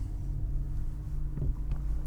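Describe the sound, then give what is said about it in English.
A large car drives along with a faint, steady low rumble of engine and road noise heard from inside. There is a soft, even drone with a few small bumps, and nobody speaks. “We're driving the big spy car today”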